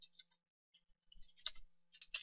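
Keys tapped on a computer keyboard while typing code into a web editor: faint, sparse, irregular clicks in small clusters, with brief quiet gaps between them.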